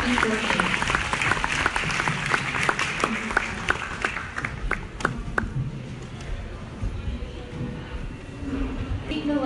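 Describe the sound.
Audience applause welcoming speakers at a live talk on masculinity and ending gender violence: dense, energetic clapping that thins out and fades through the second half.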